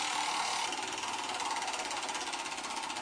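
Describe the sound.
A prize wheel is spun hard, giving a continuous rapid rattling tick from start to end at a fairly even, dense pace. No voices are heard over it.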